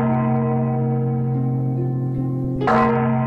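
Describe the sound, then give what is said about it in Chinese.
A large bronze bell in a Buddhist temple hums with a deep, sustained, steady ring, with a brief brighter struck accent near the end. “只听见寺内的大钟响了10声”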